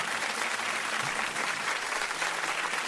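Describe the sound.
Audience applause at a quiz competition: dense, continuous clapping from many hands, loud and steady with no breaks.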